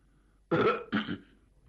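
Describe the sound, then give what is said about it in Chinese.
Throat clearing: two rough, guttural bursts separated by a brief gap, the first longer and the second shorter, heard alone in quiet surroundings. “张作霖一看人都来得差不多了，清了清嗓子”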